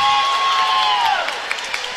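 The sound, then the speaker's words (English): Home fans clap during a volleyball match in Gothenburg, a steady crowd wash with a sustained tone that slides down in pitch, followed by a few sharper claps. “Swede faithful clapping, and it's a serve into the net.”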